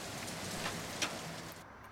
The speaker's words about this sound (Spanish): Ay, pero cómo llueve y yo que no me traje el paraguas.